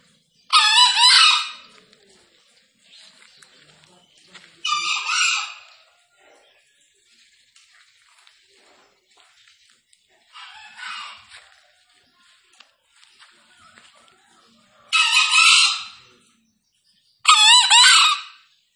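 Green junglefowl, released to roam free, give high, shrill crows: five short, loud calls separated by long quiet gaps, with a few fainter calls in between.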